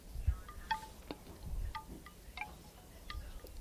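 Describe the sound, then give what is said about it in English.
Soft wind blows outdoors in faint, gentle gusts, with a low rumble swelling now and then. Light bird chirps sound intermittently over it. “The wind picks up from time to time. But it's generally speaking very subtle.”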